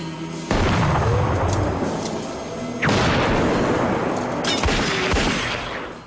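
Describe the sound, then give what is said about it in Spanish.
A pistol fires in a dramatic scene as a criminal grabs an officer's gun and shoots. Two loud, sharp blasts stand out over a dense, continuous roar of noise that fills the whole clip. “El malhechor se vuelve de pronto, toma la pistola de Andrea y dispara.”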